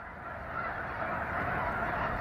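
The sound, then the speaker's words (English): A huge flock of snow geese takes off on a misty morning just after daybreak, amid drought in California. Dense, overlapping honking calls merge into a continuous loud roar that swells slightly and holds steady throughout. “an uncountable gaggle of snow geese suddenly takes off, turning the sober sky to static.”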